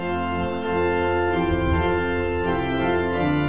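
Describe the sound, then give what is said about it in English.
Pipe organ sounding a bright, full chord texture with the 8-foot and 4-foot principals plus a mixture stop of five higher principal ranks, in a Lutheran church; the loud, sustained tones hold steady and shift in harmony partway through. “So now I'm going to turn on the mixture, which is 5 higher principal pipes in octaves and half octaves, all playing for each note. So I've got the 8-foot principal, the 4-foot principal, and the mixture on”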